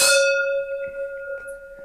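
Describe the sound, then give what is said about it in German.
Wine glasses clink together in a toast with Rioja, one bright strike that rings on as a clear, sustained tone and slowly fades, with no talk. “Ich muss es mit meinem und deinem Glas anstoßen, weil das war einfach wirklich sehr, sehr schön poetisch.”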